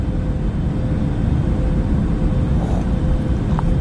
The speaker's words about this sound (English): This is apparently from inside the cockpit, so you can hear.